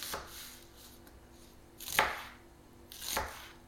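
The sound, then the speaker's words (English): Knife chopping peppers while cooking, beside a hot pan: three sharp, spaced chops, the middle one loudest, over a faint steady background hum. “It's just I'm a little distracted. You know, what with the cooking and all. I've got a sharp knife here and a hot pan,”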